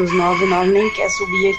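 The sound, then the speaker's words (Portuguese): A rooster crows beside a steep, damaged neighbourhood street: one long, loud, strained crow fills the moment while a man talks over it. “Olha o galo cantando aí.”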